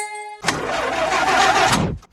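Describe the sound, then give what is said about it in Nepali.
An old, broken-down car engine starts with a rough, noisy mid-range roar that holds steady for about a second and a half and then cuts off abruptly. “होइन कतिन्जेलसम्म यस्तो बिग्रिएको गाडी चलाउनु अब त अर्को गाडी लिनुहोस्”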